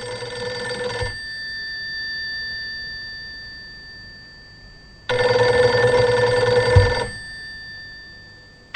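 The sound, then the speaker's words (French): Telephone ringing during a call placed to a supervisor: two long, steady electronic ring tones, the first cut off at the start and the second lasting about two seconds after a four-second gap, with quieter line hiss between. “Vous ne quittez pas deux secondes, je vais passer un petit coup de fil à mon supérieur.”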